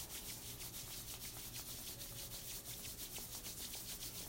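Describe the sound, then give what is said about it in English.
Palms rubbed together during a guided eye-relaxation exercise, giving a soft, dry swishing made of many quick, even strokes in a steady rhythm. It stays faint and continuous, with no talking. “Closing the eyes, rubbing the hands.”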